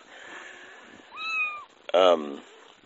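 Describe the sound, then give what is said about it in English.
Nursing kittens meow twice, two short high-pitched cries over faint background, the second louder and more insistent. “Like these kittens underneath me right now. Looks like one of them's upset that he's not getting any milk right now. Anyway, hopefully they're not too noisy.”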